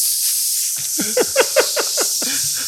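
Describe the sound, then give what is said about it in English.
A voice imitates a sizzling fajita plate at a Mexican restaurant, producing a steady high hiss with a few short voiced pulses rippling through it. “like when you're at a Mexican restaurant and they're coming around the corner of the kitchen with a plate of like sizzling fajitas, you just like hear that sound like”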